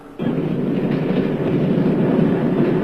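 A train travels on rails: a steady, loud rolling rumble begins abruptly after a brief quiet moment and continues unbroken to the end, with no voices.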